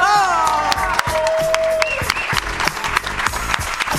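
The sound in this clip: An audience at the cultural space of the French Federation for UNESCO applauds and cheers in dense, steady clapping, loud and continuous, with a voice heard over it.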